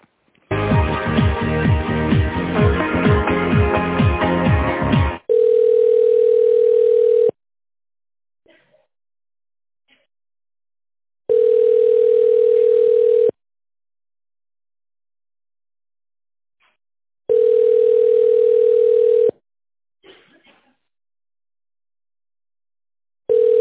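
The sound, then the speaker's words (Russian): Telephone line tones while a call is redialed: a dense burst of mixed tones, then a steady single-pitch tone sounding in long pulses of about two seconds each, four times with long silent gaps, the last cut off. “Давайте попробуем перекрутить.”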